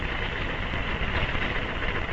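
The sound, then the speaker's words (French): Steady, dense mechanical whirring from a punched card reader-punch reading punched cards of program instructions or data at 800 cards per minute; the noise stays even and unbroken for the whole stretch, with no voices. “La lectrice perforatrice lit les cartes perforées contenant soit les instructions du programme, soit les données à traiter, à la vitesse encore jamais atteinte de 800 cartes à la minute.”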